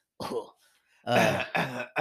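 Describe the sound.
Throat clearing comes in a few rough, voiced bursts: one short burst, a brief pause, then three more in quick succession, fairly loud and with no other sound around them.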